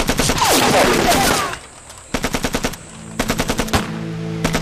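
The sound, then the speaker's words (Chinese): Type 11 Taisho light machine gun firing: a long, dense rattling burst, then after a short gap several shorter bursts of sharp, rapid shots, loud and harsh throughout. “什么三八大盖啊？这是大正十一式轻机枪”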